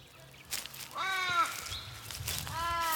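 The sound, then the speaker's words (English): Birds calling in the bush at a bushland cemetery, a natural burial ground: a few harsh, nasal, crow-like caws rise over faint rustling background noise, with two clear calls standing out. “Hear that? It's the sound of the bush. I'm surrounded by trees, birds, shrubs, and bodies.”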